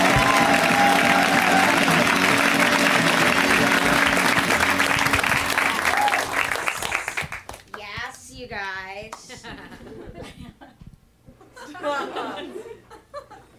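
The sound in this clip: An audience claps and cheers loudly for a comedian introduced at a comedy show. The applause lasts about seven seconds, then fades as a voice starts talking and scattered laughter follows.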